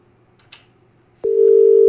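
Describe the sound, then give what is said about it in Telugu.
Telephone tone after a caller's line was cut off: a faint click, then a loud, steady mid-pitched tone that sets in and continues to the end. “Hello, okay, caller line cut అయింది.”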